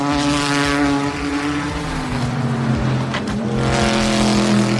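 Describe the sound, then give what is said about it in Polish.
Corvette and Aston Martin race car engines roar at Le Mans in a loud, continuous drone with strong, buzzy harmonics that hold steady throughout. “Z tej rywalizacji korwety za Stonem Martinem kibice na pewno zapamiętają też dwa najpiękniejsze dźwięki silników tegorocznego Le Mans.”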